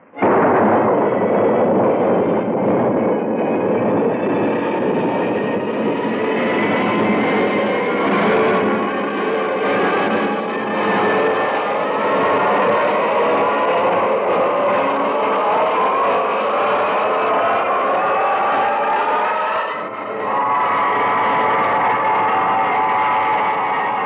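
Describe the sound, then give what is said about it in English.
A rocket blasts off with a loud, continuous roar that holds for over twenty seconds, dips briefly near the end, then surges again. “Countdown for blast off. X-5, 4, 3, 2, X-1, fire.”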